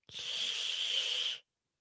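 A person imitates a snapping turtle's hiss with one steady, breathy hiss that lasts just over a second, fairly soft, and then stops into silence.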